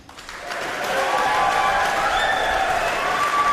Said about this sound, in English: Please give a warm round of applause for Whamanu Whanoti Fui Ma'ono